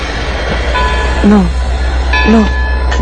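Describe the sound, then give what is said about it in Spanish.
A moving passenger train rumbles steadily and loudly throughout, with two short voiced sounds rising above the noise partway through. “Por favor, paren el tren. ¿Se puede parar el tren?”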